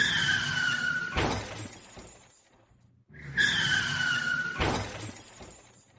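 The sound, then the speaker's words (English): A car crash sound effect plays twice: each time a tire screech is cut off by a loud burst of crashing metal and shattering glass, with a short lull between the two crashes. “Oh, there we go. The four car crashes”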